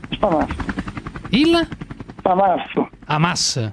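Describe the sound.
A human voice imitates a helicopter with rapid, choppy mouth bursts and buzzy voiced sweeps, broken into several loud spurts with short gaps between them.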